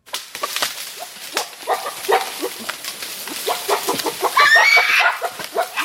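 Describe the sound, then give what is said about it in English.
Rainforest sounds from documentary footage of a family of Grauer's gorillas in Congo: many short, clucking animal calls in quick, irregular succession, with a denser burst of chirping near the end. “And here's a moment from some documentary footage shot for CBS of a family of Grauer's gorillas hanging out in a rainforest in Congo.”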